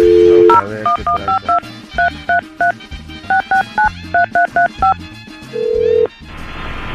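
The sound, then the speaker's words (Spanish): Telephone dialing tones while calling a pharmacy: a brief steady dial tone, then many quick touch-tone beeps in rapid groups, ending on a longer sustained tone. “Vamos a marcar.”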